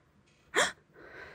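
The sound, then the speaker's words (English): One sharp, audible gasp, a quick and fairly quiet intake of breath that stands out briefly, followed by a softer breathy sound. “he pushes himself forward and there's an audible gasp.”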